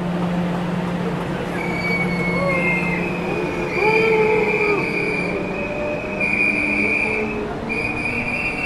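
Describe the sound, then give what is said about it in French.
A TGV high-speed train departs with a steady rail rumble, overlaid by long, high, sustained wheel squeals that rise and waver at a fairly constant loudness throughout. “Voilà le TGV qui part.”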